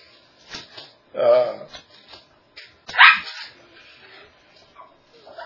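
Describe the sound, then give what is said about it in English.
A dog and a cat fight over a dog bed, with two loud bursts of barking and whimpering separated by quieter scuffling noises. “So we got a dog and cat fight going on over here. The cat's in the dog bed.”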